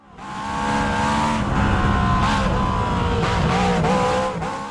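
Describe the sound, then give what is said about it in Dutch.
A small Lola race car with a big spoiler roars through laps, its loud, steady engine drone holding a high, strained tone that wavers slightly in pitch throughout, with no voices. “Ja, dit was de Lola. Ik weet niet of je die auto's kent van die kleine raceauto's met een grote spoiler.”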